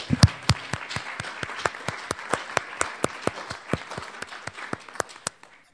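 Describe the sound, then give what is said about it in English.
Audience applause welcoming a speaker at a California Council of the Blind event: many crisp, evenly spaced claps in a steady rhythm, a few per second, that continue at an even level before tapering off and stopping at the end. “So let's give him a hand and welcome.”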